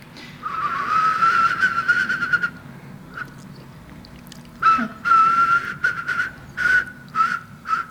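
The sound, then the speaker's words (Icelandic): A person whistles in imitation of a whimbrel call, first a long wavering mid-pitched note, then after a pause a run of several short, clear whistled notes repeated in quick succession. “Stundum alveg mjög samfærandi spóanljóð”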